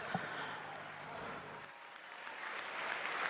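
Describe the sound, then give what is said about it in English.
Faint, steady applause from an audience honoring performers, a soft continuous patter of many hands that dips briefly past the midpoint and then carries on. “Huge applause”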